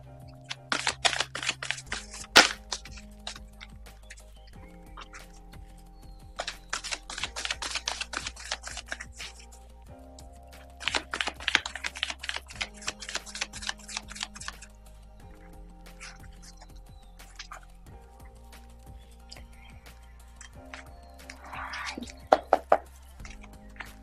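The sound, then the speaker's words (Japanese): Tarot cards being shuffled for a reading, in several bursts of rapid crisp riffling clicks separated by quieter pauses. “カードをシャッフルしております。少々お待ちください。”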